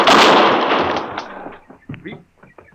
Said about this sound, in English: You shot him. Of course I shot him.